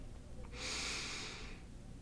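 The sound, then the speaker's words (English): A single deep inhale during a breathing exercise: one soft, airy breath lasting about a second, quiet over a low background hum. “Take another deep inhale.”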